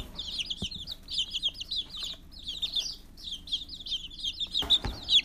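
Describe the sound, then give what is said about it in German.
Chicks peeping: many rapid, high chirps in dense clusters that continue steadily throughout, with a brief dull knock near the end. “Und vielleicht hört ihr im Hintergrund die Küken quieken.”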